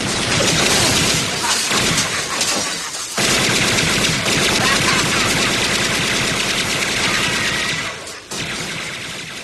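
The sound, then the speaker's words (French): Sustained machine gun fire from a film scene rattles in loud, dense rapid bursts, broken only by a brief gap near the start and another near the end before the firing resumes. “Alors j'ai coupé parce qu'il y a encore à peu près 15 secondes de mitrailleuse. Le mec défouraille genre 9 chargeurs...”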